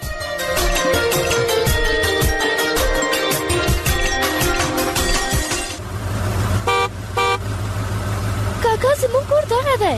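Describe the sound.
A car engine idles as the vehicle is about to be parked outside a house. A steady low rumble fills the second half after a stretch of music, with short tonal sounds riding on top near the end.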